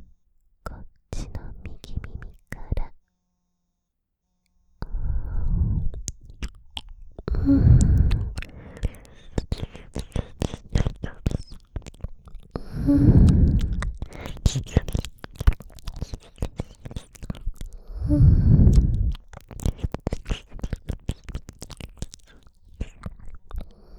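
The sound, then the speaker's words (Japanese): Wet ASMR ear-licking mouth sounds: many dense smacks, clicks and slurps, broken by a short silence near the start, with three soft breathy swells spread through the rest. “それでは、お耳、舐めさせていただきます。”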